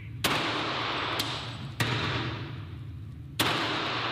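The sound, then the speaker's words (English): Gunshots from an armed standoff involving police ring out as a few sharp, isolated reports spaced irregularly over a steady, loud background rumble. “hundreds of rounds exchanged for nearly three tense hours.”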